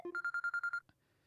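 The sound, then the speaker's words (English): An incoming spam call sets a phone ringing with a faint electronic ringtone: a short lower tone, then seven quick, evenly spaced higher beeps, ending in a soft click. “Sorry, I've got some pesky... Yeah, I've got some pesky caller. Yeah, I'm just like, yeah, I know it's a spammer, like just go away. I should just block them.”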